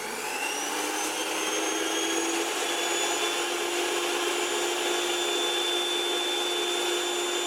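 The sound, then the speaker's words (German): An electric hand mixer whirs steadily as it beats flour, eggs, milk and salt into a batter, giving a constant high motor whine that holds without pause throughout. “jetzt hole ich erstmal mir das Rührgerät und Mehl, Eier, Milch und Salz gut vermischen und verrühren mit dem Rührgerät.”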